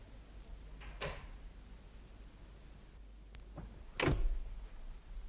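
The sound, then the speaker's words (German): Door being opened: two soft, brief scraping or creaking sounds a few seconds apart, the second louder, over a faint low hum. “komm doch rein, die Tür ist nicht abgeschlossen.”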